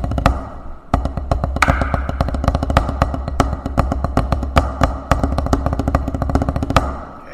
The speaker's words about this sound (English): This is just a drum pad. This is a practice pad. And it's meant to not be loud.